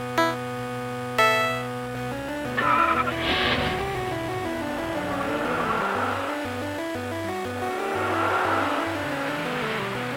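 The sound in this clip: Cars race in a video game, their engines droning and revving with stepped, shifting pitch, like gear changes, over several seconds at a steady moderate loudness.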